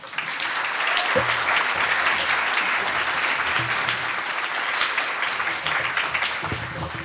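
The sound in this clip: Audience applause greets a speaker at a talk session, a full, even wash of clapping that starts at once and carries on steadily for several seconds.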